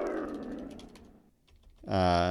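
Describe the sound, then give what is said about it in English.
Typing on a keyboard wired to a soundboard: rapid light key clicks over a rushing noise, then a short lull and a loud, sustained buzzing tone that ends the sequence. “that's what happens if you type on a soundboard.”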